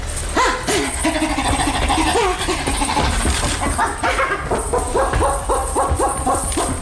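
A dog barks and yips while fetching a hare, giving many short, sharp barks in quick succession. The barks are loud and grow denser toward the end, with a whimpering, yelping edge.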